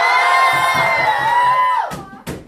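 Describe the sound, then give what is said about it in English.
A live studio audience cheers and shouts hello together in one loud, sustained yell. The shout tails off and falls in pitch, then breaks into a couple of short, sharp bursts. “Audience, say hello to all of our listeners.”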